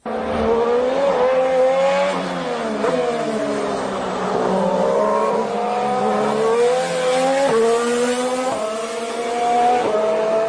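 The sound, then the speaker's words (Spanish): A Renault Formula 1 engine screams as a high, smooth, tonal whine, loud and continuous, its pitch climbing and then dropping sharply several times as the car shifts gears. No voices are heard. “es un sonido mucho más limpio. Claro, curiosamente, sí es el mismo motor de Toro Rosso, pero por el sistema de escapes suena mucho más fino, seguramente también por la electrónica.”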